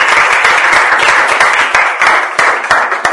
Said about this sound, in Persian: خودتون تشویق کنید.